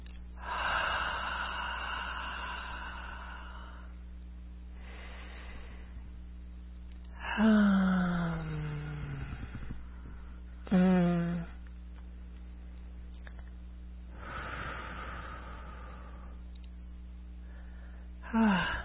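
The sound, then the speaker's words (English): A group taking slow deep breaths during a guided meditation: a few drawn inhales and sighing exhales separated by pauses, faint over a low, steady hum. “close your eyes, please, and just take a nice deep breath in with me.”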